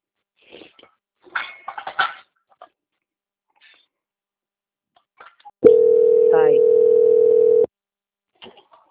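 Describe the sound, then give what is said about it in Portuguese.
A steady telephone line tone holds for about two seconds while a call is being transferred, with a few faint clicks and short taps before and after it. “peço que aguarde linha e vou transferir o contato para o controle de qualidade que dará continuidade à contratação.”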